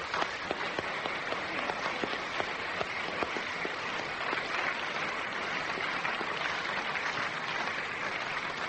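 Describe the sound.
A studio audience at a radio panel game applauds the winner, a dense, even wash of many hands clapping that holds steady at a moderate level from start to end.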